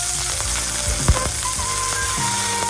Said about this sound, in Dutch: Dit klinkt wel heel sappig. Ja, dat is het. Is dat een hamburger barbecue? Dit is een hamburger, die wordt graag gebakken.